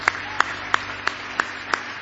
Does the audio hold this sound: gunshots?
no